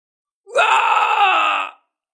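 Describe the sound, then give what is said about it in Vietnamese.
A loud, sustained male scream in a fantasy battle scene: one continuous harmonic yell of just over a second that sweeps quickly upward at the start, holds steady and strong, then cuts off. “Chí tôn của tiên điện hét lớn một tiếng”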